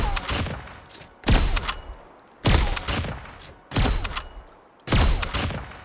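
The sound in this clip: Video-game gunfire after slide, jump and turn moves: five loud, sharp shot bursts at a steady rhythm about a second apart, each cracking hard and then trailing off before the next.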